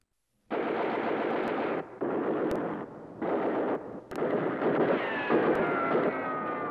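Gunfire from the top of a sand dune: several long, sustained bursts of rapid shots, broken by short pauses and marked by a few sharper cracks. The fire is loud and dense, with no voices.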